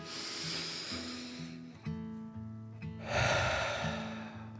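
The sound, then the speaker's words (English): Slow, deep breaths taken in and let out, heard as long airy rushes of breath, one early and another later, over soft sustained music. “the cardboard box took another deep dragon breath in and out.”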